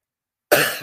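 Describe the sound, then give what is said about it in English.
A single loud, rough cough bursts out after half a second of silence, then trails off slightly as it ends. “sorry about that cough”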